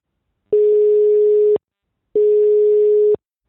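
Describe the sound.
A telephone busy signal sounds when calling a doctor's office: two identical long beeps at one steady mid pitch, each about a second long and separated by a silent gap. The tone is loud and clean, with nothing else heard.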